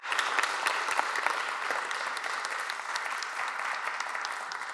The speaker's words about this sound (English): No, let's put our hands together. Welcome her and say, we're open to receiving everything you're going to share.